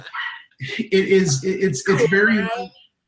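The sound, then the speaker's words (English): A dog barks and yips in a few loud, tonal bursts, with short gaps between them, over about three seconds. “I'm sorry about my dog barking in the background”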